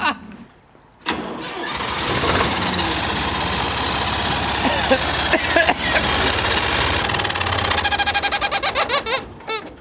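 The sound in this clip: An engine starts after a moment of silence, then runs at its lowest idle speed in a steady, loud rumble. It shuts off with a rapid run of sputtering, chuckling pulses at the end.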